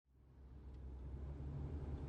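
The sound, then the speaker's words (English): A car drives along with a low engine rumble that swells from nothing into a steady, dull hum and holds there with no voices. “Annie, are we driving in circles?”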